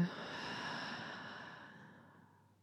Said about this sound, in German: Wir atmen nochmal tief durch die Nase ein und halten den Atem kurz an. Und durch den Mund ausatmen.